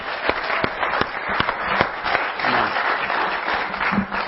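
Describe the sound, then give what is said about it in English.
Applause from a church audience for their pastor. A few sharp, separate claps open it, then the sound thickens into steadier, fuller clapping that stays fairly loud throughout, with no talking. “Can we give your pastor a hand for being such a man of God?”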